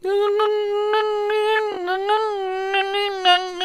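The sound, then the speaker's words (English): A human voice imitates the high-pitched whine an engine makes between idle and 3500 RPM, a sustained nasal tone held for several seconds with slight wavering and occasional breathy bursts. “It will not make the noise in idle, and it will not make it above 3500 RPM. But anywhere in between there, you will hear a high-pitched whine. I'm going to make the noise for you.”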